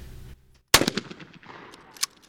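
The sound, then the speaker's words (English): A shotgun fires once at a clay target during trap shooting practice with a sharp, loud crack, then a ragged, rattling tail of decaying sound after a low rumble in the first moments. “a new member prepares to aim his shotgun and attempts to shoot a clay target out of the air”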